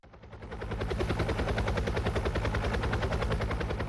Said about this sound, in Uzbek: Bu vertolyotlar Rostvertol mahsuloti. Rossiya korxonasi ularni Venesuelaga yetkazmoqda.